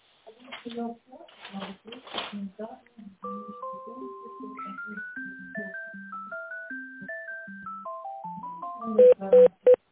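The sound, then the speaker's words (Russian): Electronic telephone tones as a call is transferred: brief talk at the start, then a stepping sequence of pure beeps at shifting pitches like a simple tune, ending in a few louder tone bursts. “Можно с Галией соединиться? Да, сейчас переключу.”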